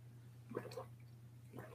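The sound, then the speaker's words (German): A big sip of café au lait, heard as two faint, wet slurping swallows separated by a short pause, over a steady low electrical hum. “jetzt dein Ankergetränk bereit haben und erstmal einen kräftigen Schluck nehmen”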